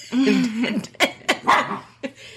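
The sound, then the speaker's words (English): A household dog barks: an opening whiny yelp followed by several short, sharp, loud barks spaced unevenly over a couple of seconds. “if you guys hear a dog in the background”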